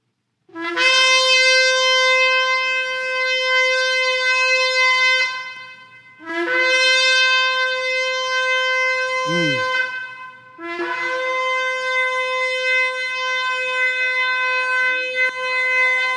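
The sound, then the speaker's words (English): A shofar sounding the tekiah, three long, loud, sustained blasts with a brassy, buzzing tone, each held for several seconds with short breaks between them. “So the tekiah was a long blast that stirred your spirit and sent it upwards.”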